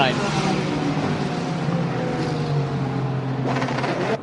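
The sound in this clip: LMP2 race cars leaving the pit lane during a race, their engines a loud, continuous roar throughout, with a commentator talking over them.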